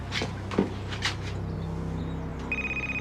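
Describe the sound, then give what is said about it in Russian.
A mobile phone ringing as it lies on a doormat at an entrance. A steady, pulsing high electronic ringtone starts near the end, after a few soft knocks and rustles. “Он замечает мобильник, лежащий на коврике у входа.”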